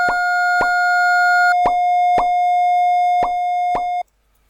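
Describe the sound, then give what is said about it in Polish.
Audio graph tones from graphing software tracing a sine graph: a steady electronic tone plays while six short plop-like blips mark the points where it intersects a second graph, spaced at an uneven rhythm. “Słyszymy to drugie, ale słyszymy dźwięki, które oznaczają miejsca, w którym przecina się ono z tym pierwszym.”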